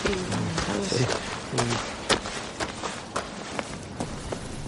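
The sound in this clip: Footsteps of two people walking, a run of quick, uneven taps and scuffs that fades slightly toward the end.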